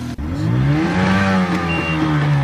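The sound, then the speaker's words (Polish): A motorboat engine drones steadily as an archaeologists' boat heads out to an island site for underwater excavation work, its low humming tone layered with clear harmonics and holding fairly even throughout. “To wchodzimy teraz na motorówkę archeologów.”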